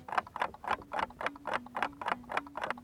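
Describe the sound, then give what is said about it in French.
A clock ticks in an even tick-tock rhythm, many faint, evenly spaced clicks following one another at a steady pace. “Tout se joue au niveau du tic le tic et le tac sont séparés par une distance égale.”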